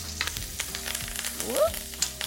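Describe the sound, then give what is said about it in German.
Steaks searing in a pan with butter, garlic and thyme give a steady, dense sizzle with scattered sharp crackles and a few light clinks throughout. “ich habe die Steaks jetzt von allen Seiten 2-3 Minuten angebraten. Jetzt kommt noch Butter, Knoblauch und Thymian dazu.”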